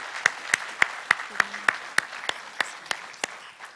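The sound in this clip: About a dozen sharp, evenly spaced claps ring out in a steady rhythm, each one distinct with quiet gaps between, as an audience welcomes guests.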